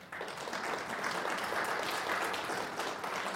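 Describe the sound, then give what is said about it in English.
Audience applause, a continuous, steady wash of clapping from many hands at an even, moderate level with no break. “you might have clapped prematurely. I didn't even say what I was going to.”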